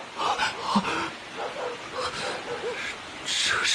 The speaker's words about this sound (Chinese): 你仔细听，狗叫声里还有鬼子的叫声， 是鬼子的巡逻队